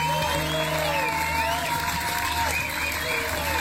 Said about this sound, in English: Shall I add the clapping to it?